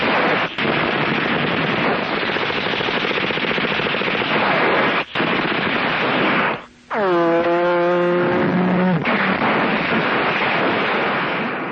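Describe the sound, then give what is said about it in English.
Recorded battle noise played from a tape recorder, dense loud automatic gunfire and blasts roaring almost without a break, with one brief drop midway before the firing resumes. “he turned the tape recorder on, and I heard what sounded like a full-scale battle.”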